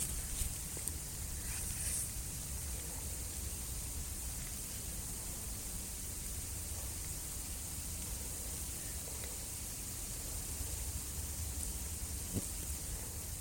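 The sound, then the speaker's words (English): Billions of flying ants swarming on flying ant day make a faint, unbroken rustling hiss, a soft even wash of noise with a few tiny ticks. “So I did record it, and this sort of rustling, hissing noise that you're about to hear is billions of ants”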